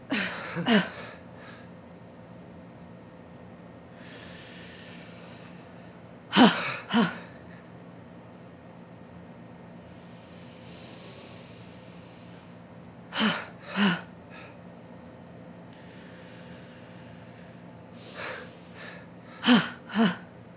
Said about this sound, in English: One breath in, making you inflate up. And letting out like a bad leak.